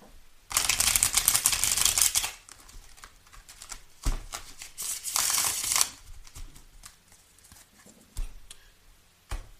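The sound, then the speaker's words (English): Heaven and Earth Tarot deck cards being shuffled and handled: several bursts of crisp riffling and flicking, the loudest early on, with softer taps and slides between. “And for those who want to know, I'm using the Heaven and Earth Tarot deck. Let's clarify entrepreneur. May I have a card for entrepreneur, please?”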